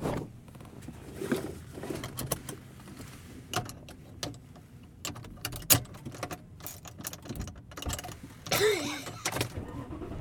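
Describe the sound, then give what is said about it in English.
Car interior noise while driving, with a low steady rumble under frequent clicks, taps and rattles, and no talk. “And I am driving home.”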